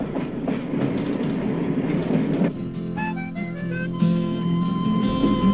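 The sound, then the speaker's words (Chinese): An international passenger train runs on rails with a steady rumble and clickety-clack, moderately loud, then a few clear tonal notes rise over a thinner rumble in the second half. “快到巴塞尔了。 可是，国际列车上的人们对此事却一无所知。”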